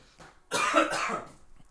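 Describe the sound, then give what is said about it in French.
A person coughs once: a short, harsh burst that stands out loudly against near silence before and after. “Pardon, je tousse aussi.”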